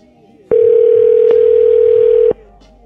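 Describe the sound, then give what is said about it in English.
A steady telephone tone sounds while a call is being placed: one loud, unbroken hum lasting under two seconds, with sharp clicks at its start, middle and end, then quiet. “I'm gonna call him again.”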